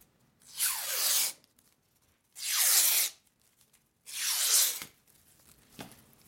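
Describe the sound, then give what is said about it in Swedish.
Curly ribbon tearing as its end is ripped into thin strips: three separate rasping tears, each lasting under a second with short pauses between them, followed by a faint final snap. “Och då remsar du liksom upp det i änden. Ja, för att det ska bli fler tunna skruvar.”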